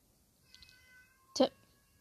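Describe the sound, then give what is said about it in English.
A cat gives one short, bright meow that stands out loud after a quiet stretch, with faint thin tonal sounds just before it. “Sorry, my cat meowed.”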